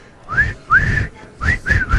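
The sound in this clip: Whistled melody in a pop song: clear, bright notes in several short phrases, each sliding up and then holding, over a low instrumental backing.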